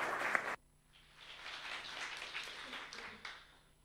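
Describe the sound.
Soft audience applause welcomes a speaker: faint, steady clapping that holds for about three seconds after a brief louder moment at the start.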